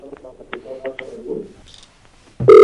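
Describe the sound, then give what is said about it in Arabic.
A phone call to an Arabic radio call-in show cuts off. A faint voice is heard on the line, then a sudden loud, steady electronic tone takes over at the very end. “طيب يبدو انقطع الاتصال.”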